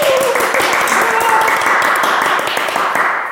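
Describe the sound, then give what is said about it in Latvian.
Audience applause congratulating prize winners on a show: dense, brisk clapping with some voice sound mixed in, fading slightly at the close. “Kas nozīmē tos pašus aplausus, kas skan katrā raidījumā.”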